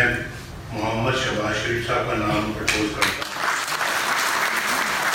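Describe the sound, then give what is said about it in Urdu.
Participants at a Pakistan Muslim League party meeting break into applause: a voice speaks first, then clapping starts suddenly and carries on as a steady, even wash of many hands. “شرکا نے تالیاں بجا کر نواز شریف کی تجویز کی تائید کی۔”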